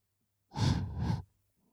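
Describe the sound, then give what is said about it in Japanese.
A single deep breath, soft and airy, lasting under a second and heard alone in near silence. “それじゃ深呼吸しようか。”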